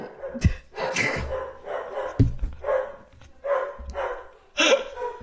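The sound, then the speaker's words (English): A dog barks at people arriving at the door, a rapid run of several loud, sharp barks in quick succession with short gaps between them. “there's nothing you can follow up quite like a dog barking at every single person that comes to your door”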